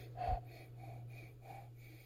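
Soft sniffs and breaths through the nose while smelling Centinela Eterno Cristalino Añejo tequila. A few faint, airy sniffs and exhales come in short puffs over a steady low hum.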